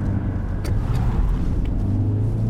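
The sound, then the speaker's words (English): A car engine rumbles and pulls forward as the car accelerates alongside a metal fence and past portable cabins. The low, steady drone holds throughout with no talk. “accelerates as he drives alongside a metal fence and past porta cabins”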